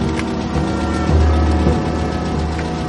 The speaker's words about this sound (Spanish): Un coche viene por detrás.